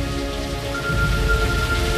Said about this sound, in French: La pluie.